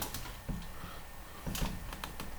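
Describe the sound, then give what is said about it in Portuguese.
Computer keyboard keys pressed for shortcuts such as Alt and Ctrl, a few quiet clicks in small clusters over a steady background hiss, with no voices. “Vou pressionar Alt. Documento submenu Alt mais abrir CTRL mais lá.”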